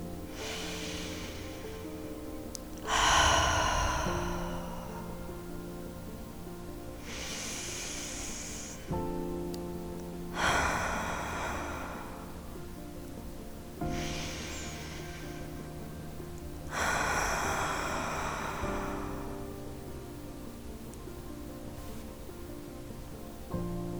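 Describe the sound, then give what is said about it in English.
Deep, slow cleansing breaths, in and out, during a guided relaxation: several long breathy rushes a few seconds apart over soft, steady low tones. “we're going to start with some cleansing breaths together. We're going to start with three cleansing breaths.”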